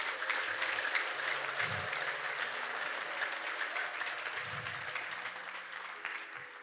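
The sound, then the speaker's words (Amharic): Church audience clapping in praise of God, a dense, steady wash of applause that continues for the whole stretch and eases off slightly toward the end. “ለእግዚአብሔር አጨብጭቡ እንጻን።”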